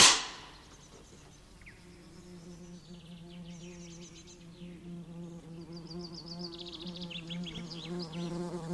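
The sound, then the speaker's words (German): A wasp buzzes in peak wasp season, a wavering, droning hum that wobbles in pitch and grows gradually louder toward the end, after a sharp knock right at the start. “Weg da! Es ist Wespenhochsaison.”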